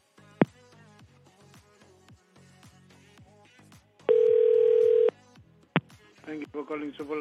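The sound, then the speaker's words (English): Telephone line tones as a call to a hotel front desk is transferred: a sharp short beep, then a steady tone lasting about a second, followed by another brief beep. “For hotel guests, dial the number. Your call is transferred.”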